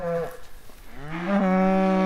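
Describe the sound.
A cow moos while being herded on a farm: a low, drawn-out bellow with rich harmonics that swells louder and holds to the end, after a shorter lowing call at the start.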